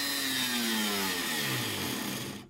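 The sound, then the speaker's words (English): A grinder cutting into metal, picked up through a contact microphone: a dense, harsh, continuous whine whose pitch sinks slowly, then stops abruptly at the end. “This is with a contact microphone, I think. This is on metal with the same grinder.”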